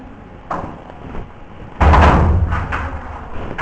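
A door is pushed shut and latched, with a soft knock early on, then a loud, dull thud and a rumbling rattle that slowly fades.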